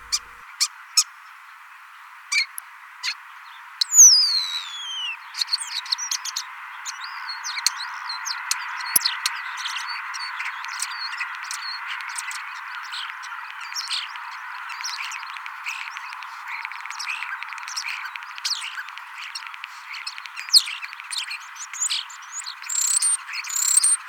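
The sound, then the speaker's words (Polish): Male songbird singing a long, varied song of many motifs said to resemble the knobs of an old radio being turned: rapid chirps, clicks and thin whistles run continuously over a steady bright hiss, with no voices. “Niektóre samce potrafią wykonywać ponad 30 różnych rodzajów motywów, a mi piosenki samców najbardziej przypominają dźwięki przekręcanych gałek w starym radioodbiorniku.”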